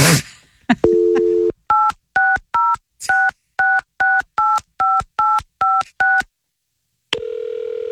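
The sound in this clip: A phone number is dialed on a telephone keypad with touch tones, a quick, evenly spaced run of short two-pitch beeps. A steady tone sounds before them, and after a pause another continuous tone follows.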